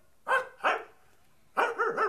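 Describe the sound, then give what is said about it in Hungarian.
A dog barking in short, mid-pitched bursts: two barks close together, a brief pause, then a quicker cluster of a few more barks. “úgy látszik, Viola kutyának is van valami mondani valója”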